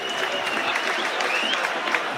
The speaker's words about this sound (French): Ça applaudit même du côté de la tribune sur cette mauvaise passe de Mandouki.